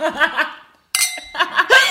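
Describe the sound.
Glasses clink together in a toast, a bright ringing chime that stands out after a short pause, with laughter and chatter around it.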